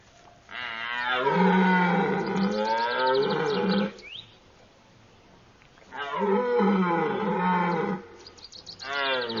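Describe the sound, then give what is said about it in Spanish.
Deer call during the mating season in a forest clearing. Two long, loud, raspy harmonic bellows are separated by a quiet pause, and a third call begins at the end. “Estas llamadas son respondidas. Son gritos de duelo. Todos los ciervos, hasta los más jóvenes, participan.”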